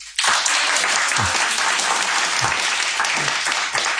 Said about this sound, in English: Well, as you can hear, there's an audience here in the shop